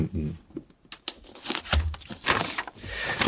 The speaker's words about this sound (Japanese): これ、のし的なものがついて。めくってみましょうか。